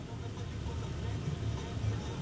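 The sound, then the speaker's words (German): An armoured vehicle driving along the Gaza border fence, its engine giving a faint, steady low rumble with no clear change in pitch. “Wir sind unterwegs in gepanzerten Fahrzeugen. Fahren zunächst entlang jenes Grenzzauns, den die Hamas am 7. Oktober durchbrach.”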